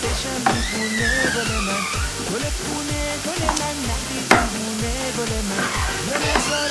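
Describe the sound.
Food frying in a pan gives a loud, steady sizzle throughout, broken by repeated scraping strokes of stirring in a rough rhythm, with no voices.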